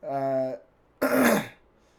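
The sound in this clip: A person clears their throat, first with a short voiced hum, then after a pause with a harsh, rasping rumble. Both parts are fairly loud and stand alone.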